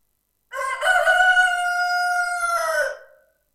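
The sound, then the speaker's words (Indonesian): A rooster crows once, a loud, drawn-out call of about two and a half seconds that holds a steady pitch and then drops away at the end, with nothing else audible. “ayam.”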